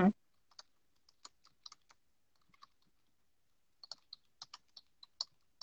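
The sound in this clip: Quiet keystrokes click on a computer keyboard while someone writes, coming in two irregular bursts separated by a pause of about a second, after a single soft thump at the start.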